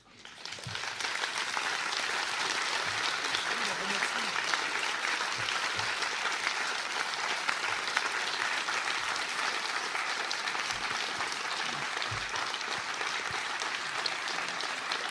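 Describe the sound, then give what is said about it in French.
Sustained applause from an audience after a conference talk: a dense, even patter of many hands clapping that rises quickly and stays at a steady loudness for about fifteen seconds. “Vos applaudissements témoignent de tout l'intérêt que nous avons porté à cette conférence et à cet échange.”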